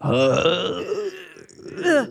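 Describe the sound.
A strained, drawn-out groan from someone squeezed in a bear hug, the voice sagging in pitch, followed by a shorter, higher vocal burst.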